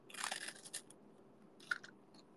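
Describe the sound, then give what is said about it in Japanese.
Faint crunching and chewing of a Hololive Man Choco chocolate wafer: a cluster of crisp bites at the start, then a few softer crunches. “この、食べるものがみんな、音だけで伝わる系。これ、ホロライブマンチョコのエハース食べ終わったら、ドロンします。”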